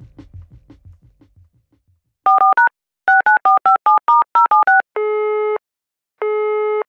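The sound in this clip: Telephone tones before a call: a quick run of short keypad beeps in two bursts, then two long, steady electronic tones with a gap between them.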